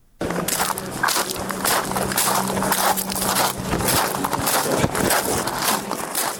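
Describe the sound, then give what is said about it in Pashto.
Footsteps crunch across sand in a steady walking rhythm, with many gritty, scraping steps following one another at a fairly constant loudness. “په دې اړه پام کړی رپورت ته چې په شګو کې په قدم وهلو سره پیلېږي.”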